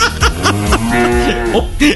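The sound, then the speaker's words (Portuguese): A cow mooing: a loud, low, drawn-out call with a wavering tone that rises and falls across its length. “Um mugido”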